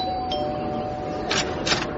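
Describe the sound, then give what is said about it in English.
A doorbell rings with two brief, bright chimes close together over a steady background hiss. “This looks like the place, all right. You better ring the bell.”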